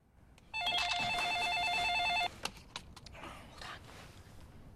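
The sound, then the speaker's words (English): An electronic telephone ring warbles steadily for nearly two seconds, then stops abruptly. It sounds as a woman carries the phone through her apartment to take the call, and faint scuffing follows. “carries the phone through her apartment to take the call.”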